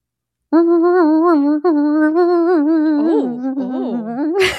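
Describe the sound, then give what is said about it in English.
A voice imitates a movie's piranha sound effect, a sustained, wavering, buzzing hum with a gurgling, watery wobble, like drowning flies buzzing, ending in a short noisy burst. “they have a sound to represent these piranhas. Okay. And they kind of sound like, imagine if a giant group of flies was drowning and buzzing with like water in their lungs.”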